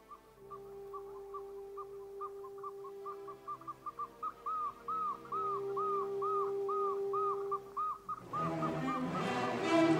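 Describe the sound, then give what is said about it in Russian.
Nightingale singing over the sea at dawn, with boats nearby: a long run of quick, repeated whistled notes over a steady low hum, fairly faint, followed near the end by a burst of broad rushing noise. “щелканье соловья перешло в мелодию”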